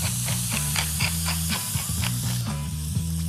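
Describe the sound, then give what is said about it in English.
Onions and garlic sizzle in hot olive oil in a pan while Italian meatballs are being made. A steady, bright hiss runs throughout, under rhythmic background music. “Pan, nice and hot. And a tablespoon of olive oil. Quite generous with the olive oil. Onions and garlic in.”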